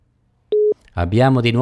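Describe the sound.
A telephone busy signal sounds on a lost phone line as one steady, mid-pitched beep, and then a voice starts speaking.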